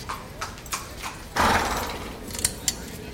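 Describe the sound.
Horses at a race make a few sharp hoof clops on hard ground, with a longer breathy rushing burst partway through, then more scattered hoof strikes.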